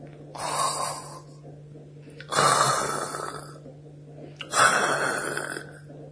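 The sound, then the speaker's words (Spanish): Loud snoring from a sleeping ogre in a told story: three long, rasping snores with an even rhythm, separated by quiet pauses and heard alone, with no talk. “Suena el ronquido del ogronte.”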